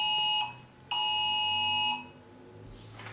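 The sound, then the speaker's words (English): A phone alarm going off unexpectedly: a steady, high electronic tone sounds briefly, pauses, then returns for about a second before cutting off, leaving quiet background. “or maybe that's my phone, but it shouldn't be doing that”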